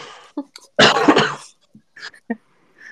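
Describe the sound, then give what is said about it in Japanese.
A single harsh, loud cough bursts out, with a few short, faint throat and breath sounds before and after it. “おい、咳出るからやめろ、もう。”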